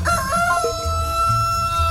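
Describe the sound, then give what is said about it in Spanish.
A rooster crows loudly in one drawn-out, harmonic call that wavers in pitch and fills the whole two seconds over a rough low background rumble, with no voices. “¡Elegante otra vez el gallo!”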